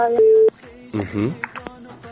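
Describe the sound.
A telephone tone sounds after a radio caller's line disconnects: one steady, loud electronic beep lasting about half a second, followed by a voice speaking.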